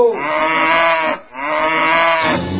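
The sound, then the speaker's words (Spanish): A bull loose after leaping the barriers of a bullring bellows twice, each call long, loud and low, with a short gap between them. “¡Cuidado, cuidado, el toro! ¡Cuidado, cuidado! ¡Cuidado! ¡Cúbrase que el toro está suelto!”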